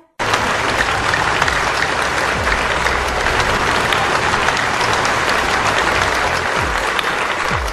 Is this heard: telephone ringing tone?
no

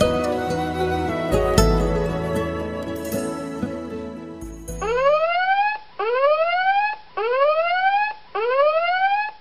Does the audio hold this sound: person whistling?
no

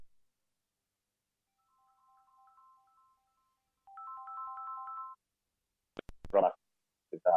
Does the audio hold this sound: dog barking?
no

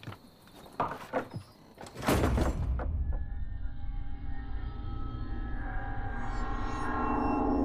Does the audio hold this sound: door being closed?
yes

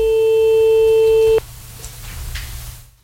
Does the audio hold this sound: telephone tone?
yes

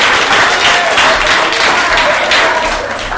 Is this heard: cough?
no

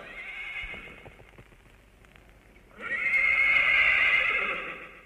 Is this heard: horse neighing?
yes

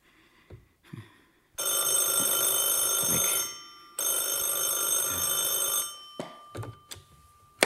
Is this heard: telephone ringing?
yes

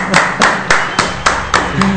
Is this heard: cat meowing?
no

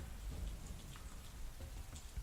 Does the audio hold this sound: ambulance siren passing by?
no

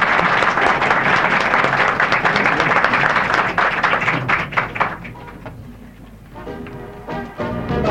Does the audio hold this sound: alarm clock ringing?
no

